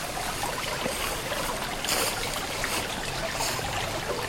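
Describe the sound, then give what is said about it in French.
Water lapping softly among flowers and greenery, a faint, steady, continuous wash with small irregular splashes and no voices. “Le clapotis de l'eau vous invite à une pause.”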